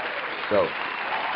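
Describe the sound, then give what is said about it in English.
Applause for a guest on a sports talk show: a steady, even wash of clapping that lasts the whole brief moment, with a short tonal blip partway through. “So we got to make sure we give Mr. Steve Manderson, the Source Radio Network, a round of applause.”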